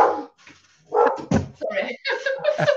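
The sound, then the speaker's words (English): A dog barks a few times in short, sharp bursts, and a person talks afterward. “Oh, that's my dog. Let me just shut the door.”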